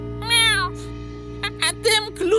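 A cat meows in a long, drawn-out cry, followed by a few shorter vocal sounds over a steady low hum. The setting is a story about an annoying, pestering cat.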